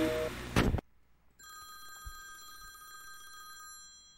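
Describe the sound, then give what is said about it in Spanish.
A telephone rings with an incoming call on a call-in line: one sustained bell ring of bright, steady high tones lasting about two seconds over a low background rumble, with no talk. “Ahí está la primera llamada.”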